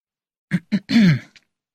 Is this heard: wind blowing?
no